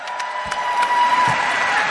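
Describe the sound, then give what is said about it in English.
Sustained audience applause for a live band's music director: a steady, even wash of clapping that holds at a constant level from start to finish with no clear breaks. “Real quick, a big round of applause for our music director.”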